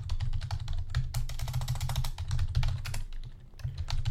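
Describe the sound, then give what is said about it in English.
Rapid typing on a computer keyboard, with many dense keystrokes clattering in a steady, continuous stream and no voices. “Type in Google on Google.”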